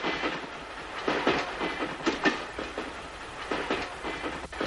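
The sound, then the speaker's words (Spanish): A train running on the railway, a steady, loud rumble of rolling wheels with rhythmic clacks over the rail joints, continuous throughout with no voices. “El tren se aproxima lleno de banderas rojas”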